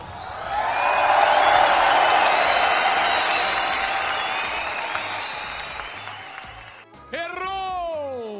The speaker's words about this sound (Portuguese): Parabéns, parabéns pro Open Hunchmoon. Palmas, palmas.